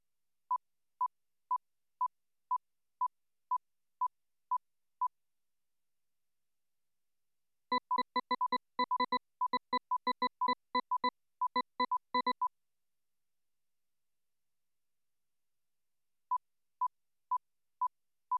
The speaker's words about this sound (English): The evenly spaced tones of the target sequence are now more audible within the camouflaging sequence, even though the maskers have become louder.